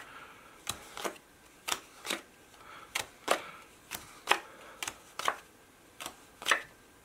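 Playing cards are dealt out one by one onto a surface for a blackjack card-counting demonstration: many crisp, soft slaps at an uneven rhythm, fairly faint, with no talking.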